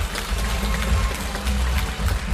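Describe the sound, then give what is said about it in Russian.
Loud, dense applause from the audience at a mothers' contest, sustained and even, with a heavy low rumble beneath the clapping. “Давайте ей подарим овацию.”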